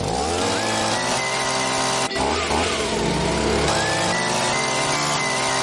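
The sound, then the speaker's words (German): A leaf blower engine running loud and continuous, a dense buzzing roar with whining tones that waver slightly in pitch, steady throughout with no talk. “Herbst-Live-Music präsentiert die größten Laubbläser-Hits aller Zeiten.”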